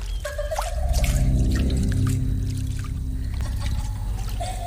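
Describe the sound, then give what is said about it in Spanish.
Splashing, churning water, as if someone were diving into a swimming pool, forms a continuous loud wash with scattered drips and trickles over a low sustained hum. “¿Alguien está buceando en la piscina?”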